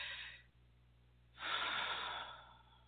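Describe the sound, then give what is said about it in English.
A deep breath, heard as a short soft breath sound, a brief pause, then a longer, fuller rush of air that slowly fades; airy and gentle, with no voices. “Take a deep breath. Let's take a deep breath.”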